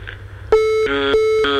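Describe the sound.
An electronic telephone ringing during an interview, a loud, steady tone switching back and forth between two pitches in quick succession over a faint low hum.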